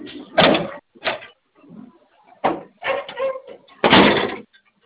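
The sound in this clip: Door being locked with a key: several loud, irregular clunks, knocks and rattles from the door and lock, separated by brief pauses, with no talk.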